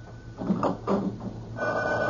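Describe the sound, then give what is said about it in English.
A telephone by a bed rings with a loud, rattling bell in a few short bursts, and the last ring carries on to the end. “Now, cut off the phone by the bed. Quick!”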